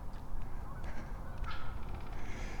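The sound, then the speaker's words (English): A large flock of about sixty geese honks overhead, flying high in an uneven chevron above a creek. Many faint, repeated honks overlap over steady background noise. “And I hear geese. There's geese overhead.”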